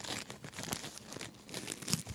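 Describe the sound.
Christmas-present wrapping paper, heavily taped, being torn open: crinkling, ripping bursts of paper and tape with steady rustling throughout.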